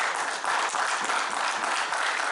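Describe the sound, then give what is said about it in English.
A church audience claps and applauds steadily, a dense, even wash of hand claps with a faint crowd murmur and no clear speech, holding at a moderate level throughout. “Get on a hand clap and pray.”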